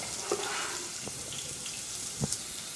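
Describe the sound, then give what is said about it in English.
Chopped onions drop into hot oil and sizzle with a steady, bright hiss. A few soft taps and scrapes break through it. “First, I'm going to put the onions in. Back to the bench scraper to scoop up these onions when they're going into the oil.”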